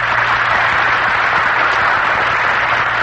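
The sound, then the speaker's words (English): A studio audience applauding to welcome the radio audience, a loud, even, continuous roar of clapping with a faint low hum beneath it. “let's hear you welcome our distinguished guests from north, east, south, and west, the great American radio audience”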